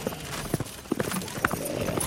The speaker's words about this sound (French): Je lance mon cheval au galop en direction de la ferme Le Mot.